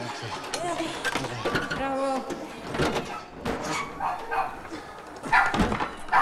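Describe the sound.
A dog barking as it runs into a large bare room of an old civic building, giving a few short, rough barks mixed with creaks and scuffling movement.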